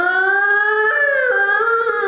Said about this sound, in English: Because we were in the bomb shelter with them every day. As you hear that siren going,